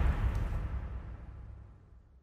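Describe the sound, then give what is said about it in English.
A bomb explosion sound effect: a single deep boom that breaks into a low rumble and fades steadily over about two seconds. “Detonate that Edgar Allan Baltimore bomb.”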